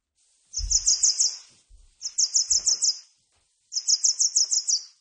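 Warbler song: three bursts of rapid, high-pitched notes, each a quick string of about seven bright chips, separated by short silent gaps, with a few low thumps near the start.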